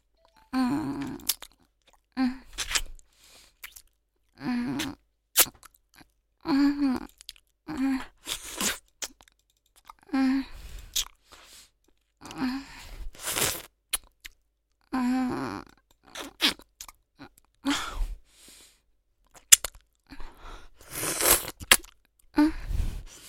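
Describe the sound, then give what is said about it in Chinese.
Wet chewing and licking sounds while eating a banana: many short, irregular bursts of mouth noise with soft smacks and crunchy bites, fairly loud and with no talk. “舔一下香蕉的头头。好吃。”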